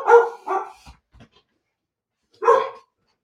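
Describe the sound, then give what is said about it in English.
A dog barks in a few short, loud, harmonic bursts: two close together, a pause with faint soft sounds, then one more bark. No one talks. “One dog. We have one dog. One dog has stopped barking. Perfect. And the other dog, the grand dog, is not.”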